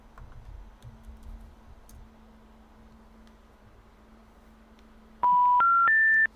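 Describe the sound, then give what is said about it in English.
Three steady electronic telephone tones step upward in pitch, loud and clean after a call to a non-working number. Before them there is only faint low rumbling noise and a steady hum. “The number you dialed is not a working number.”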